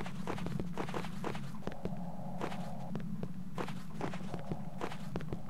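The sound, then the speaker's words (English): Footsteps of a character walking in a video game: a steady, even stream of many moderate steps over a constant low background, with no talk. “So we're walking.”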